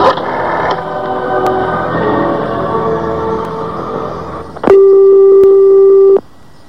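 A telephone call being placed: a few faint clicks over a muffled background, then a single long, steady ring tone that cuts off abruptly.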